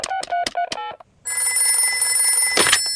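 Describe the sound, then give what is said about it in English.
A telephone rings in a quick series of bright, high-pitched bursts during a call to the doctor. After a brief silence, a steady, buzzing line tone holds to the end. “Don't worry. I'll ring Dr. Brown Bear.”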